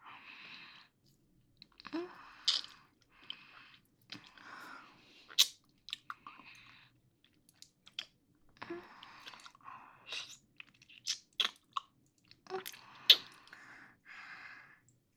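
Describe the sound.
Chewing of cake while someone is being fed: many soft, moist crunches and squishy bites in an irregular rhythm, fairly faint, with short pauses between bursts.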